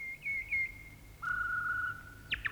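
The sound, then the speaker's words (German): A bird sings two long, thin, steady whistled notes, the second lower than the first, then a few quick high chirps. The song is faint and heard alone. “Ein Vogel singt.”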